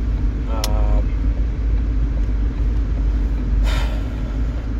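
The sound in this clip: A car driving around: a steady, loud low rumble that runs throughout, with two brief higher-pitched bursts, one near the start and one near the end.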